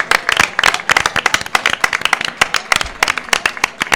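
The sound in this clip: An ovation of hand clapping from a small group, with sharp, uneven claps in quick succession that keep up at a brisk, irregular pace for about four seconds.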